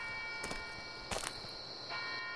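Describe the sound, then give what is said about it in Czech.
A clock strikes midnight with faint, bell-like chimes, a few separate strokes ringing out over a steady low hum. “Hodiny. Odbíjejí půlnoc.”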